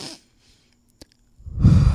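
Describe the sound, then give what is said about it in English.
Slow human breathing: a short breath at the start, a faint click in the pause, then a longer, louder sighing exhale at the end. “Keep breathing. We often hold our breath and forget to breathe. Let the air flow in and out of your lungs. Like I have to do it right now. I'll do it with you guys.”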